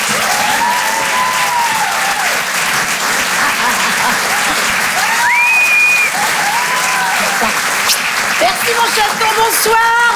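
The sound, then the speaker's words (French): Audience applause at a comedy club show, dense continuous clapping that stays loud for about ten seconds, with voices calling out over it. “Faites du bruit s'il vous plaît, merci d'encourager Karine Dubernet.”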